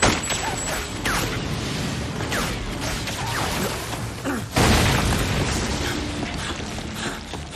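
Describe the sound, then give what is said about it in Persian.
A smoke bomb going off, a long dense rush of hissing, booming noise with a sharp, louder hit near the middle. “بمب دودی؟ اون میخواد جلوی دیدمونو بگیره، ولی برای خودش هم همین طوریه.”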